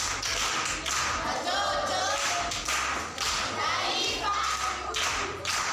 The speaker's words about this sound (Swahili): Makofi kwa shangazi.